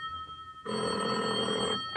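A telephone rings with an incoming call: after a quiet moment, one steady, bright, buzzing ring sounds loudly for over a second, then stops, with no voices.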